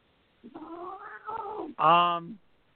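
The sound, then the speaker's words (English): An unhappy cat meows in a long, wavering, drawn-out yowl, followed by a louder, shorter, harsh meow at the end. “that cat is really not happy.”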